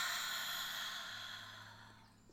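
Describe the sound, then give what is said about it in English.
A slow, deep breath during a guided relaxation exercise: one soft, airy whoosh that gradually fades, quiet and heard alone without talk. “Let's take a nice deep breath in through our nose, out our mouth. Deep breath and release.”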